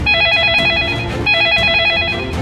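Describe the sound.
A telephone rings in two loud bursts of warbling electronic trill separated by a short gap.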